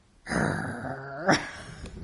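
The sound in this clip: A dog growls at someone coming into its room: a sustained, throaty rumbling snarl that swells once briefly before settling back into a low steady growl.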